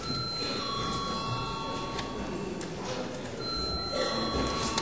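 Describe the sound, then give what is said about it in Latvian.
An electric bell rings during a parliament session, giving steady high ringing tones held for several seconds at a fairly low level, with faint background murmur. “Lūdzu zvanu.”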